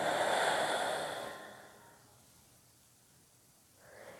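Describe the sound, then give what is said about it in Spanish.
A deep breath is drawn in through the nose and released through the mouth as soft, breathy airflow. It is fairly strong at first and fades into near quiet, then another breath begins right at the end. “Inhala profundamente por tu nariz. Y por tu boca sueltas.”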